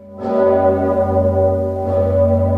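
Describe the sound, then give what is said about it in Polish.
The great Sigismund bell of Wawel Cathedral in Kraków rings in the New Year with deep, resonant tolls. Two strikes about a second and a half apart ride over a heavy, humming low drone that sustains throughout. “W Krakowie dźwięk dzwonu Zygmunta oznajmił nadejście nowego roku.”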